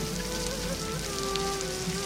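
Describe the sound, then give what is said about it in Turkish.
Heavy rain pours down in a sudden downpour over the plain of Kosovo: a steady, even hiss that stays level throughout. “Kosova meydanı üzerine sağanak halinde yağmur boşandı.”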